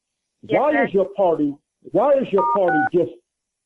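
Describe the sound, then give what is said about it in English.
Telephone keypad dialing tones on a phone line, two short dual-tone beeps sounding under a person who is talking steadily. “Whoever that is in the background, you're dialing numbers. We can hear you.”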